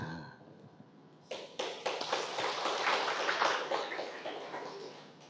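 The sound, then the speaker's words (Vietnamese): An audience member claps at a talk, a few separate claps at first that quickly thicken into faint, continuous hand clapping lasting several seconds. “Thầy nghĩ người này hiểu mới vỗ tay trước tiên.”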